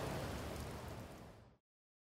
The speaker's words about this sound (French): Je suis à Londres. C'est horrible. Il pleut et il fait froid.